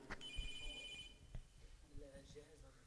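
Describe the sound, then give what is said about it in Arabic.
A telephone rings during a lesson at a mosque in Sidon, Lebanon: a brief, high electronic ringing tone of about a second, heard faintly under a voice that keeps talking. “مين عم بدو على التلفون؟”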